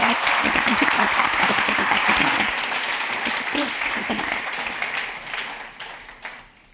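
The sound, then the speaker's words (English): A church audience at Mercy Church applauds in a dense burst of clapping that starts full and gradually tapers off toward the end. “Can we give Julia a hand one more time?”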